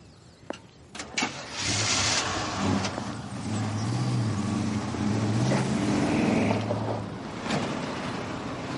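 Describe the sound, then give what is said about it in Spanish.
A van engine pulls away along a road, opening with a few sharp clunks before settling into a steady mid-pitched motor drone that swells and eases slightly as it drives. “La furgoneta se aleja por un camino.”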